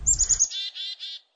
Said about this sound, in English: I hear a chickadee calling here as we get started.